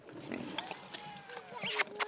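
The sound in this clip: Pigs grunting in an enclosure where they have been rooting up the ground, with a few short, squealing calls mixed in alongside people talking.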